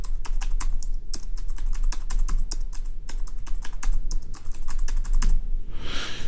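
Fingers type on the keys of a Braille Sense braille notetaker, making many crisp, quick clicks in an irregular, continuous rhythm, with no voices.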